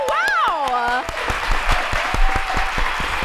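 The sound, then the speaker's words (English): Studio audience applause, a steady patter of many hands clapping, with a voice exclaiming over the opening moments before the clapping carries on alone. “Was that like sound effects in there, too? Yeah, that's awesome. Don't tell them our secrets. Yeah. Just kidding. Everyone in here was clapping for me.”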